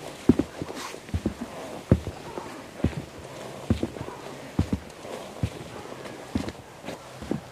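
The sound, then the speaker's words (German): Footsteps on a wooden boardwalk: a steady walking rhythm of many dull, knocking steps on planks, moderately loud over a soft background hiss, with no voices. “Auch der Boden hier, der Steg, schön gemacht. Ein Holzsteg, den man hier entspannt entlang gehen kann.”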